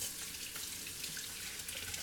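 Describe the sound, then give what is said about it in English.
Water runs from a tap as egg residue is washed off hands, a steady, even hiss that holds throughout with no voices. “Now I have egg gunk all over my hands. I need to wash it off.”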